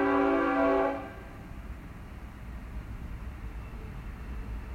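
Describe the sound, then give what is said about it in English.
A train horn blares loudly for about a second at the start, then the horn cuts off and the steady rumble of the passing train carries on alone. “excuse that awful interruption from that train just there.”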